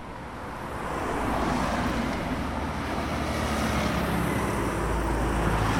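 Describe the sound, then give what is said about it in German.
Traffic noise from cars speeding around a bend on the main road through St. Georgen above St. Gallen, a broad continuous roar that swells over the first second and then stays loud and steady. “Es ist laut in der Kurve auf der Hauptstraße durch St. Georgen über der Stadt St. Gallen. Die Autos rasen um die Kurve.”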